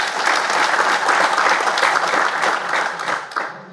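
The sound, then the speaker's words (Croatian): Audience applause at a municipal day ceremonial session: dense, even clapping from many hands that carries on steadily throughout and thins slightly near the end. “Također jedan pljesak.”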